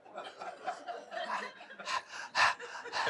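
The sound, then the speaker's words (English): A group of people panting together in quick, breathy bursts, mixed with chuckles and snickering laughter, growing louder toward the end. “Can we just have one more group pant?”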